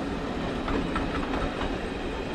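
A train rolls along the outskirts of St. Petersburg in Tsarist Russia, its wheels clicking in a steady clickety-clack over a constant low rumble, fairly quiet throughout.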